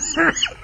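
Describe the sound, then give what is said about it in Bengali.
A short, throaty cough from someone whose cough is not easing, a brief rasping burst with a harsher catch at the end, and no speech. “কিন্তু কাশিটা তো কমে নে গো।”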